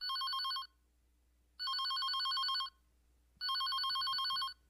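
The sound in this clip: A telephone rings three times, each ring a bright, warbling trill lasting about a second, separated by silent pauses of equal length; the ringing is clear and sounds alone.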